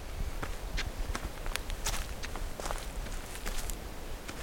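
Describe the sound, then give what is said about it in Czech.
Footsteps of people walking uphill: many soft, irregular steps over a steady wash of background noise, without any clear talking. “Teď jdeme do kopce a můžu krásně mluvit, že jo?”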